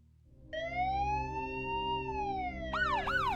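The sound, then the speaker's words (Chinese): Police sirens sound on a coastal road: a loud, sustained wail rises, holds, then slowly sinks, and switches near the end to a quicker rising-and-falling yelp over a low background rumble. “寂静的沿海公路上隐约传来了阵阵警笛声。”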